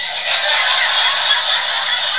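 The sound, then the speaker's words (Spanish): Seagulls calling in a dense, continuous chorus, a steady, loud, bright wash of overlapping cries with no single call standing out and no voices. “Esta audioteca va sobre gaviotas.”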